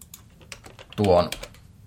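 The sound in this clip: Typing of a regular expression on a computer keyboard gives scattered, faint key clicks, broken midway by a short, louder voiced sound.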